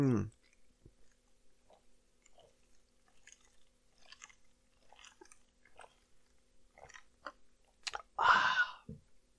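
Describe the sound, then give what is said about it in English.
Drinking soda from a cup: many soft, faint mouth clicks and small swallowing sounds, followed by a short, louder burst near the end. “I need to drink from this Captain Marvel cup.”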